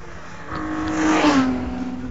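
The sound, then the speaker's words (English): Ford Capri race car passes during a six-hour endurance race at the Snetterton circuit. Its engine swells, then drops in pitch as it goes by and fades away. “As the Capri goes past me”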